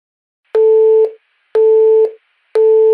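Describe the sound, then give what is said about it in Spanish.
A telephone line gives a tone instead of a dial tone because there is no signal or coverage. The tone sounds as evenly spaced pulses, each about half a second long at one steady pitch, with the last one cut off. Nothing else is heard. “No daba tono. Me paré un momento a mirar y pronto supe la razón. Sin señal.”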